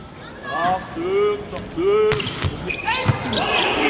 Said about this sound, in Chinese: 李永贞继续来发球